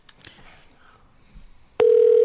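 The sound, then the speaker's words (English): A telephone call being placed to someone, with a steady electronic line tone cutting in abruptly in the final half-second after a quieter stretch of low, indistinct sound. “We're calling him right now.”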